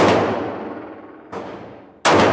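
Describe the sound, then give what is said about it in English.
Gunfire at a gun range: three loud, sharp shots, each followed by a long ringing decay before the next blast cuts in. “Rick Echter is a firearms instructor from Detroit who sits on the board of the National Rifle Association. Another day at the gun range.”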